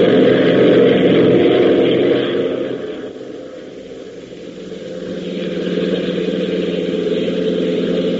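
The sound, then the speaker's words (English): A Jeep engine at wide open throttle gives a steady, full-bodied drone that eases off briefly midway and then builds back up, running continuously throughout. “open that throttle wide. Let's get back to Lakeville fast.”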